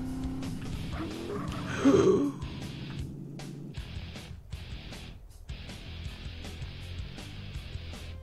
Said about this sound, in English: Oh, I have to use this shit car that I just happened to pick up?